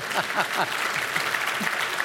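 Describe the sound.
A studio audience applauds with steady, dense clapping. A few voices cheer over the clapping near the start, and the applause then carries on evenly to the end.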